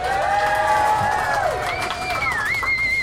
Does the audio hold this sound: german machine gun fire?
no